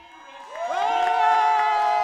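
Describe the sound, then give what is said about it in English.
A crowd erupts in cheers at an election night party in a hotel ballroom during a Seattle mayor's race, swelling quickly into sustained shouting with rising whoops that hold at full strength. “The crowded hotel ballroom erupted in cheers as Washington State Senator Reuven Carlisle formally announced Durkin's sizable lead in the mayor's race”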